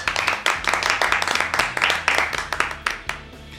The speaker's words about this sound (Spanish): ¡Aplausos!